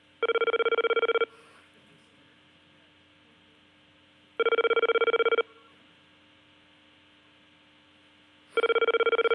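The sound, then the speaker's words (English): Telephone ringing with an unusual foreign-style ring tone, which turns out to be a fax line. Three loud, buzzy ring bursts, each lasting about a second, are separated by long silent gaps. The third burst is cut off at the end. “I think it's a fax machine, or we just went to a different country. Tokyo, man. Sounds like a Tokyo ring.”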